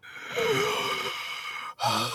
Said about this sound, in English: There's this laboured breath.